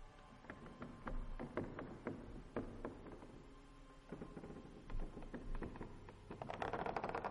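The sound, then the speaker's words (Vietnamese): Scratching and rustling behind a house near a well: many irregular soft scrapes, taps and clicks, faint and uneven, thickening into denser rustling toward the end. “Đúng lúc tiếng cào sột soạt lại vang lên ở sau nhà, nơi có cái giếng.”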